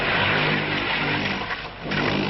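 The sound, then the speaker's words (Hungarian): Engine drone comes from a skid car simulating a slippery, slimy road at a police driving training ground. It is steady and fairly loud, dips briefly before the end, then returns. “A mögöttem látható autóval például azt szimulálják, hogy milyen csúszos nyálkás úton vezetni.”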